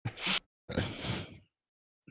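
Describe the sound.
A person sneezes with a short, sharp, breathy burst, followed by a longer rough, noisy breath. The sound is fairly faint and no words are spoken.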